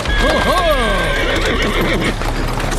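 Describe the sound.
The horse of a hired horse-drawn cab gives a loud, wavering whinny that falls in pitch, with hooves clopping and people talking over it.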